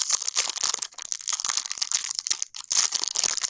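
Crinkling and crushing of snack packaging, a dense run of rapid crackles and rustles that goes on almost without pause, with no voices.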